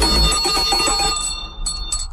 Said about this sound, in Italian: è suonata la campanella